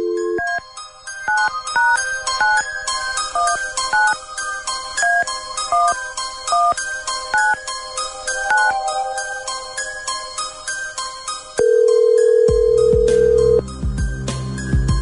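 Touch-tone dialing of a random number: a quick run of many beeps at varied pitches, then one steady, loud ringback tone lasting about two seconds.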